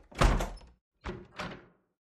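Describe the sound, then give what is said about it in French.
A door is shut in someone's face: a heavy wooden thud, followed after a pause by two shorter, quieter knocks of the latch and frame settling, then silence. “La servante, après avoir regardé de droite et de gauche, me dit qu'elle va bien et me referme la porte au nez.”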